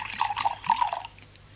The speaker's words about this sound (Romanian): Uite, torn vin pentru tine.